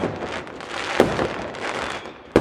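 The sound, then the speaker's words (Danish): Fireworks going off inside a living room: dense, continuous crackling and fizzing, with two sharper bangs standing out, one midway and one just before the end. “Og pludselig er det så om, at der kommer et fyrværkeri i luften inde i stuen.”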